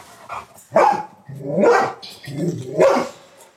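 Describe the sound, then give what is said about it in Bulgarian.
A dog barks in a yard in several loud, rough bursts, with a softer yelp at the start and short gaps between the barks. “Кучето стои в този двор, нищо, че има отделна клетка, в която се прибира и са направени високи огради”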